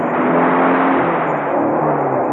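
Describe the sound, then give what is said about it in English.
A motorbike engine roars down a cliff path in a loud, steady, continuous rumble that barely changes over its short length. “Kettridge appeared from nowhere, roaring his motorbike down the cliff path”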